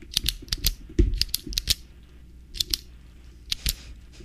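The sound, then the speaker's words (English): An ordinary pen clicking as an everyday sound in a guessing game, giving many sharp, dry clicks that mostly come in quick pairs with short pauses between the bursts. “Yeah, what is that everyday sound? Do you know? Is it a pen? Yes!”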